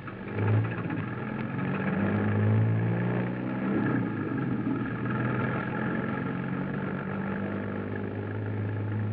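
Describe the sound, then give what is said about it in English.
A car engine running while driving gives a steady, low droning hum with a slight swell near the start, continuous and even throughout, with no voices. “Keep driving a while. You're doing fine.”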